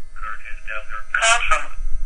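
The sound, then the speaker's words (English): A mobile phone's synthesized voice, with announce mode on, announcing an incoming call: a short, clipped stretch of tinny electronic speech over a faint steady hum. “What you just heard was my phone telling me that I had a call from Curtis Delzer.”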